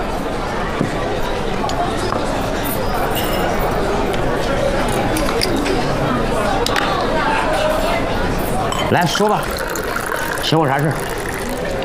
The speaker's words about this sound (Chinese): 伙计，最好的酒给拿一瓶来。 ， 我给你打开。